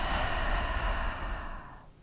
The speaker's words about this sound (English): Breathing in through our nose and out through our mouth. Breathing in, breathing out.